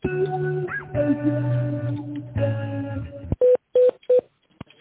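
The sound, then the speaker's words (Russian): DTMF keypad tones dial a phone extension after an automated answering-system prompt: three short, loud, evenly spaced beeps that follow a stretch of sustained tonal sound. “наберите добавочный номер в тональном режиме или дождитесь ответа специалиста”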